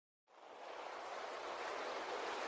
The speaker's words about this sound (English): Jeremy? It seems we have a little problem here. Hello? I can hear some water noises.